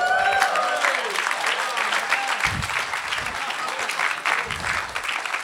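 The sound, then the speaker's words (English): Audience applause after a speaker's remark at a talk, a dense, steady wash of clapping that holds at an even level throughout, with faint voices now and then. “I mean, it's wonderful you clap.”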